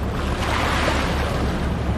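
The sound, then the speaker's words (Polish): Sea waves on the Cretan coast make a steady, dense wash of surf with a constant rushing roar and no distinct breaks, mixed with a windy hiss. “Możemy sobie chwilę posłuchać jeszcze z tego morza?”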